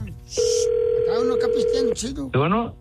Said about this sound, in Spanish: Está marcando, está marcando, está marcando.